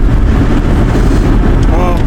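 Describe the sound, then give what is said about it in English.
Steady, loud, low rumble of road noise inside a truck driving home. A voice is briefly heard over the constant drone near the end. “We are, as you can probably tell, on our way back home again in the truck.”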